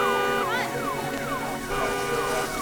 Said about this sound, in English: Car alarm.